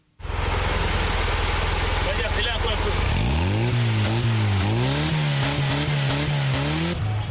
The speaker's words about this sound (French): Cédric ne passe pas inaperçu lorsqu'il parcourt les rues de Bafoussam au volant de sa pick-up. Fabriqué à partir de pièces recyclées, le petit camion bleu attire beaucoup de regards